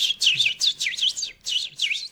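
An unpaired male bird sings a quick series of high, looping chirped phrases separated by short gaps, clear and fairly loud, with no voices.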